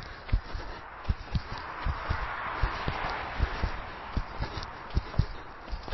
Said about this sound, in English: Nice bounce, playground skipping, knee to chest.